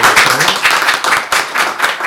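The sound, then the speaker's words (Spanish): A church audience claps together in praise, loud, brisk and continuous, with many hands striking in quick succession. “Vamos a dar palmas al Señor.”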